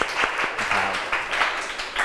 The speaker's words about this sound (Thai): ปรบมือให้กลุ่มที่3